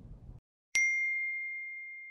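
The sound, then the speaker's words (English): A phone notification alert sounds as a single bright, high chime. It strikes suddenly after a moment of silence and rings on as a clear sustained tone, fading slowly. “suddenly you get a notification”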